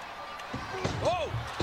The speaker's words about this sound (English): Taker with two punches to the face.